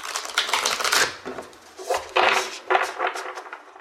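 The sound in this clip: Oracle cards are handled and shuffled, giving repeated bursts of rapid, papery clicking and flapping with short pauses between the shuffles.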